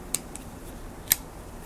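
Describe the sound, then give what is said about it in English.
Sharp clicks of a red Husky folding utility knife, a box-cutter style blade, being folded shut: two crisp snaps about a second apart with a faint tick between them, over quiet background hiss. “It's like a red Husky utility knife. It's like a box cutter. Very good at cutting boxes. It has a nice feel to the hand. And when you're done, you just sort of fold it over,”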